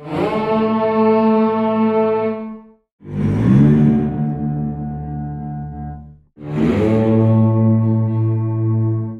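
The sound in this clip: Slide sounds from a digital instrument sampled from steel guitars: three long, sustained tones, each about three seconds, rich in low harmonics, distorted and reverberant, the second and third bending upward slightly as they begin.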